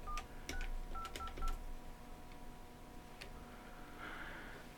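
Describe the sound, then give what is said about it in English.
Touch-tone keypad beeps as a radio talk-show host redials callers: several short dialing tones in quick succession in the first second and a half, then a few fainter tones over steady background hiss. “Okay. Well, I'm going to have to dial everybody back. Well, that's not working.”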